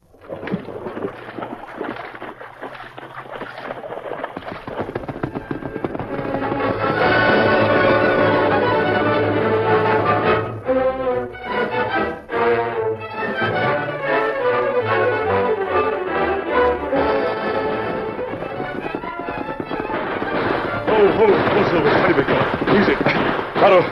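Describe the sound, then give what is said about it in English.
Gunfire in a western radio drama: a few sharp shots with rumbling echoes over a constant loud, noisy background rumble. “Who's firing at you? Part of the posse?”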